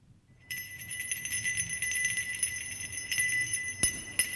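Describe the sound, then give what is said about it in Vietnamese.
A small bronze bell rings in a steady, sustained high chime with bright shimmering overtones lasting several seconds, with a few sharp clicks scattered through the ringing. “Chỉ thấy tiếng chuông rung lên một hồi”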